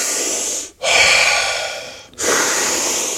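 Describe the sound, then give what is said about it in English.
A person does a guided deep-breathing exercise, taking long, airy breaths in and out. The breaths are loud and unhurried, and each one is separated from the next by a brief silent pause. “Keeping that breath going. Let's go 4 more”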